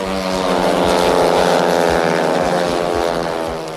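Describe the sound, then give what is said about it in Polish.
Speedway motorcycle engines roar at a team speedway final in Leszno, a loud, sustained, droning howl that holds steady throughout and eases only slightly at the very end. “Audycję rozpoczniemy od ryku motorów.”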